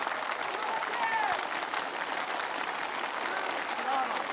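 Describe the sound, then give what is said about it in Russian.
Applause from a crowd greeting returning polar explorers in Moscow, a dense, steady wash of clapping that fills the whole clip at an even level. “Раздались аплодисменты, засверкали вспышки корреспондентов, заработали кино и телекамеры.”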